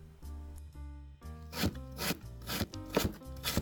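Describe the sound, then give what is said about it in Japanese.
Green bell peppers being cut with a knife: many crisp, irregular cutting taps begin partway through and come in a rapid run over a soft melodic background. “私はピーマンを受け取り、早速洗って切ることにした。”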